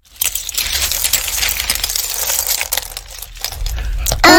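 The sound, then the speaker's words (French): Feathers, pebbles and shells emptied out in a castle, giving a busy clatter of many small hard clicks and clinks that tumble together almost without pause. “Bull et Bob reviennent au château et vident leurs trouvailles.”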